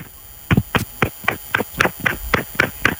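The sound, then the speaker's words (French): Quick, even knocks of a mobile phone tapped against a person's head, a steady run of dull thumps at roughly four per second with no talk over them. “Prends ton téléphone. Il est dans ta main? Ouais. Tape-toi sur la tête.”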